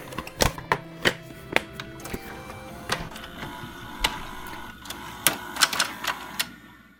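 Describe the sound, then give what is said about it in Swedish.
Mechanical clicks and whirring from a video cassette player as a VHS tape is loaded and starts playing, with many sharp clicks scattered over a steady low mechanical hum. “Trycker igång första VHSen här då.”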